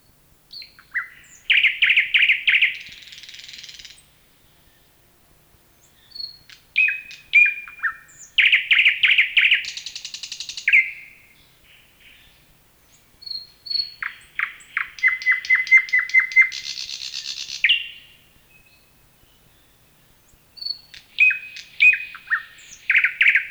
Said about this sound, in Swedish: Det var grönsångare, nu följer näktergal.